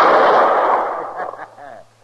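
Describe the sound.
A single pistol shot cracks out in a quick-draw shooting at bottles: a loud, sharp blast whose ringing tail fades over about a second, followed by a brief voice.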